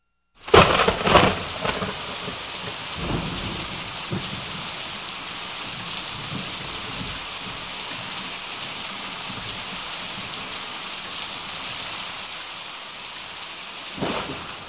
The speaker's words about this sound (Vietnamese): Tiếng sấm âm ỉ bỗng chốc nổi lên, những tia chớp cũng loang loáng xuất hiện.